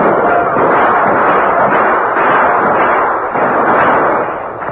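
Gunfire from men defending a circled wagon train against attackers, a dense, loud barrage of overlapping shots and booms rolling continuously, fading slightly at the end.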